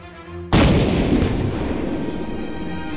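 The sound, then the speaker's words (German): A small cannon mounted at the bow of a boat fires a single warning shot in dense fog. After a short quiet lead-in, one loud booming blast bursts out and rolls on in a long, rumbling decay. “Am Bug der Tankadere stand eine kleine Kanone, mit der bei dichtem Nebel Warnschüsse abgegeben werden konnten.”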